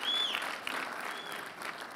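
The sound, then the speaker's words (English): A church audience applauds, steady dense clapping at moderate loudness with a faint whistle over the top at the start. “If you believe it, give the Lord a big round of applause.”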